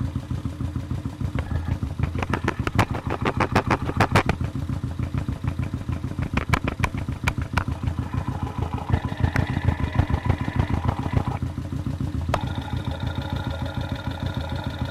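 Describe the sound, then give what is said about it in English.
Motorcycle engine idling, picked up by a contact mic at the very tip of the exhaust pipe: a steady, loud low rumble with dense, rapid rhythmic clatter that runs unbroken through the whole clip, with faint ringing tones rising in places. “See what it sounds like at the very tip, the very back of the motorcycle.”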